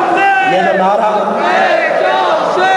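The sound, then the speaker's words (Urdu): A large crowd chants the Urdu slogan "murdabad" (death to) together, loud massed voices that rise and fall in pitch as they shout in unison. “یہ جو نعرہ آپ مردہ باد کر کے مار رہے ہیں”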